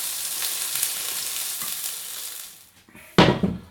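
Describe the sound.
Blood oranges fry in a pan with a dense, steady sizzle that thins out toward the end, followed by a sudden louder burst of crackling hiss.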